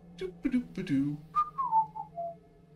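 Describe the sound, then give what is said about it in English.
A person whistles a short tune, a few clear notes stepping downward in pitch, moderately loud and mostly alone. “And this bugbear kind of closes the door behind her. Starts whistling.”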